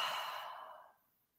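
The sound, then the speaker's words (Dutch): A soft breath out through the mouth during a guided breathing exercise, an airy, breathy exhale that starts fairly full and fades away over about a second, quiet and alone. “Adem diep in door je neus. En uit door je mond.”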